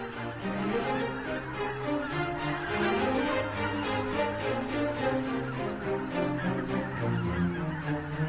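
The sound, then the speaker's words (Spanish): Many geese call on shallow water where they roost at night, their overlapping honks forming a dense, continuous chorus that holds steady throughout. “Los gansos pasan la noche sobre aguas decrecidas, donde se sienten a salvo. Durante el día se alimentan en las praderas circundantes.”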